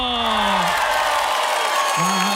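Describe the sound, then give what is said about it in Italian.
Crowd applause and cheering for a dance troupe: dense, steady clapping and crowd noise, with a sustained calling voice at the start and again near the end. “salutare e fare un applauso per il corpo di ballo.”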